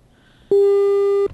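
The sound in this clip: Telephone busy tone after a call is disconnected: one loud, steady electronic tone with a buzzy, harmonic-rich edge that lasts under a second, then cuts off abruptly, preceded by faint line noise.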